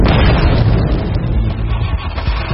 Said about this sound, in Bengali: প্রচণ্ড শব্দে স্বর্গ ছেঁড়া কেঁপে উঠতেই ওরা রাস্তায় এসে পড়ল।